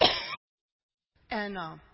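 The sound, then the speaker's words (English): Two coughs from a person with asthma, separated by a short silence; the second is longer and more voiced, almost like a throat-clearing. “I've been diagnosed with asthma, and I cough a lot. You have noticed.”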